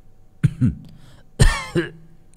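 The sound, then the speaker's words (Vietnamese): Harsh coughing from an old man sitting under a tree, heard as two short bursts of a few rough, throaty coughs each, loud and alone with no talk. “nghe thấy giọng Nguyệt mở mắt ho lên mấy tiếng khủ khủ”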